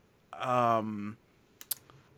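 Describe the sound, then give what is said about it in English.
A computer mouse clicks twice, sharp and crisp, just after a short hummed vocal sound, with quiet between them. “I'm sorry, I'm using my mouse today. I usually use a trackpad, so it's a little silent and you don't hear me clicking, but the battery's dead and I have to buy more batteries. So I apologize, everybody listening, if you hear the mouse click.”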